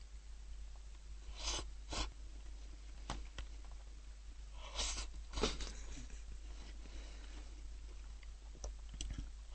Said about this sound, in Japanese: コメントなしで3口いきましたね。